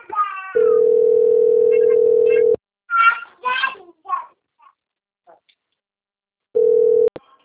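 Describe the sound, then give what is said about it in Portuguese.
A telephone ringing tone sounds as a steady, low buzzing note for about two seconds and then stops. Brief scattered voices follow in the silence, and the same tone starts again near the end before it is cut off. “Aí, tá dando o toque rouco.”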